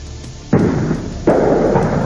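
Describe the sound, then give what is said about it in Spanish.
Gunshots and tear gas canisters fired by police during a street riot with students: two sudden loud blasts, each followed by a sustained rushing roar. “mientras las bombas de gases lacrimógenos comienzan a afectarnos. Se escuchan también algunos disparos de armas de fuego.”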